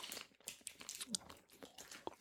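Someone chews almonds, producing a few brittle crunches in an irregular rhythm, each a short sharp burst. The sounds are quiet throughout, with no talking during the chewing.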